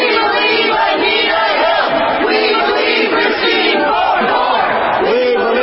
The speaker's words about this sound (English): That's the sound of some demonstrators who are protesting Brett Kavanaugh's Supreme Court nomination.